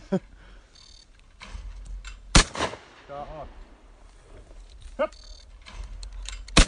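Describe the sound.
Four sharp shotgun reports ring out, spaced unevenly, while shooting clays. Men talk between the shots.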